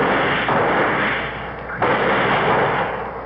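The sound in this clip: Gunfire in an old-time radio drama, aimed at a leech covering a dead man: two noisy, muffled blasts about a second apart, each followed by a decaying rush of noise.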